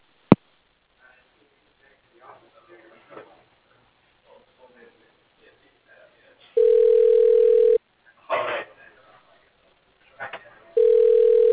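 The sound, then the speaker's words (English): A telephone line tone plays while a call is transferred: two long, steady, evenly pitched beeps separated by a quiet stretch with a few brief faint noises. “Transferring call. Please hold.”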